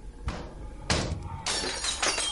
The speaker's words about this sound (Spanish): El vidrio se rompe.